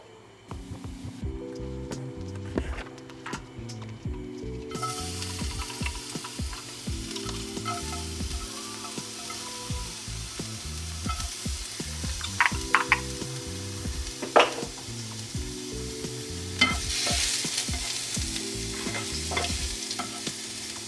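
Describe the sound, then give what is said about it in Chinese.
Garlic and ginger sizzle steadily as they fry in a little oil in a pot, with scattered stirring clicks and scrapes throughout, over a layer of background music. “好，那我们就原锅呢，再下一点点油。接着呢，我们把刚刚的蒜头跟姜。放下去。”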